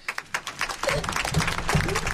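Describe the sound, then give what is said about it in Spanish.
Applause in a radio studio session with primary school pupils, opening with a few scattered claps that build into denser, continuous clapping. “Ya está, nos merecemos un aplauso.”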